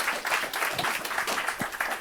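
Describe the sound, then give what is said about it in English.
An audience applauds after a talk, with a dense, uneven patter of many hands that stays loud and fairly steady throughout. “can I have a huge round of applause for Michael? Great talk.”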